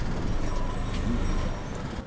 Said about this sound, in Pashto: اوه، دا موتر څنګه په شهر راځي؟